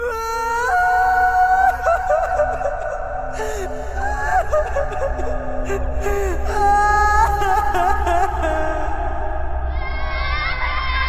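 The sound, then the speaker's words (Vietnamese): Mournful wailing comes from deep in a forest: long, wavering, moaning cries overlap through the whole clip above a steady low rumble. “lần theo tiếng khóc lóc thảm thiết vọng lại từ rừng sâu”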